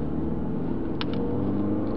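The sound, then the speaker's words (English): Road noise of a car driving across Las Vegas, picked up by a hidden recording device: a steady, dull low rumble with a faint brief tick near the middle. “You can hear the road noise on the device.”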